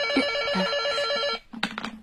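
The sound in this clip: Telephone bell rings at a criminal police office in one steady trilling burst lasting just over a second, then cuts off into quieter, broken sounds.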